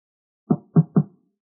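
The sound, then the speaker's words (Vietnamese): Knocking on a door: three dull, low thumps in quick, even succession, fairly loud and alone with silence before and after. “Bên ngoài lại vang lên tiếng gõ cửa.”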